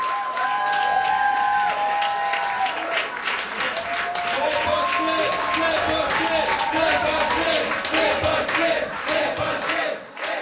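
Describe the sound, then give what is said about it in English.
Supporters cheering at the Québec solidaire campaign headquarters in Taschereau, Quebec City: a sustained, loud crowd roar of shouts and whoops mixed with clapping, with some voices holding higher cries early on. “That's the sound of some supporters at their campaign headquarters for Quebec Solidaire in Taschereau in Quebec City.”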